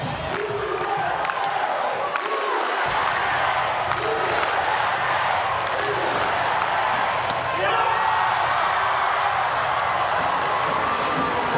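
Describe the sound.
A tennis ball bounces on the court before a serve, giving soft, repeated thumps beneath a steady wash of crowd noise while a commentator talks over it.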